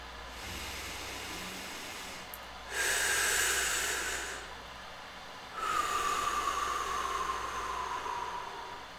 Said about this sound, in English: continue to take deep, slow breaths. It sounds something like this.